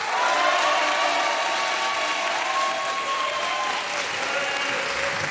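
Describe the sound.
Applause from the studio audience of a French radio quiz game recorded in Saint-Denis welcomes a pair of contestants, a steady, dense clapping that holds at an even, loud level throughout.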